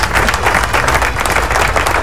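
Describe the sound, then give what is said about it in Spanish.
Steady applause from many hands clapping during a live program, a dense, continuous and loud patter that holds level throughout with no talk over it. “También aplauso a Mileni.”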